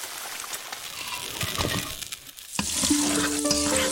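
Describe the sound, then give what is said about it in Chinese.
Sugar melts in hot oil while being stir-fried for a Chinese basi spun-sugar dish. Busy sizzling mixes with repeated scraping stir strokes, and the frying grows louder and denser toward the end. “白糖在油中融化，精准控温，不停翻炒，讲究眼疾手快。”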